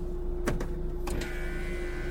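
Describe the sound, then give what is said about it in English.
A car's power window motor rolls the glass up with a steady whirring hum and a constant tone, marked by a few faint clicks early on. “Just roll up your window”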